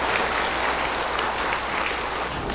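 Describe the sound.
Warm applause welcomes a Buddhist master invited to give a Dharma talk. Dense, continuous clapping keeps an even loudness from start to end, with no voices.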